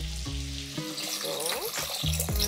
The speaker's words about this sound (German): Da kommt jetzt einfach nur Brühe drauf.